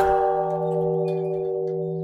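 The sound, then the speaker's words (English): A peace bell in a park rings with a sustained, layered metallic hum that slowly fades. It is a single steady tone heard alone, without voices. “That's the sound of the peace bell in Enger Park.”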